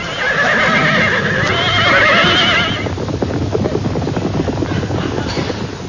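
A panicking herd of zebras at a water pan: loud whinnying calls at first, then a steady, rapid drumming of many hooves.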